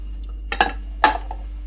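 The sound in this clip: White ceramic serving bowls clink together, two distinct bright knocks about half a second apart, each with a short ringing tail, over a quiet steady background.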